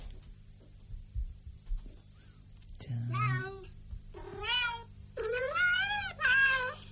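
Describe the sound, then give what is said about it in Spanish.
Synthesized cat meows come from a translation program turning a spoken name into cat language. Several drawn-out, tonal meows follow one another after a quiet start, their pitch wavering up and down. “Como voy a decir Ramiro y después el programa lo traduce en gato.”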